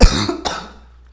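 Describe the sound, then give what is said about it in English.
Two sharp, raspy coughs from a person who has just choked on their own saliva. The second cough is a little weaker, and the sound trails off into quiet. “I just choked on my own spit.”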